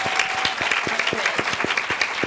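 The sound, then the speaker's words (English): An audience at a sponsored event applauds. Brisk, dense clapping holds at an even, moderate level for the whole stretch. “So a round of applause.”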